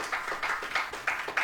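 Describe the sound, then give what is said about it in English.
Congregation clapping hands in a church service, a fairly faint, steady, rhythmic run of about five or six handclaps at an even pace. “I think I can clap my hands a little bit better than that.”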